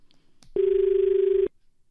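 A telephone tone marks an incoming phone-in call: a single steady, low-pitched tone lasting about a second, standing alone over faint background noise.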